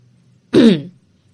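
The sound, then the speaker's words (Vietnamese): A man clears his throat once, a short rough burst of under half a second, heard alone against quiet background hum. “Ông ta hắng giọng hơi quay mặt đi.”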